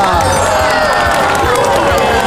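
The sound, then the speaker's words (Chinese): An audience applauds to welcome a guest from Russia onstage, with dense, continuous clapping mixed with crowd noise and some cheering, loud from start to finish. “首先让我们用热烈的掌声欢迎今天的一日代表，来自于俄罗斯的 Melissa。”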